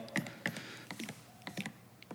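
Drawing a brick wall picture: a faint, irregular run of many short scratchy strokes and light taps, each brief and crisp, with small pauses between them.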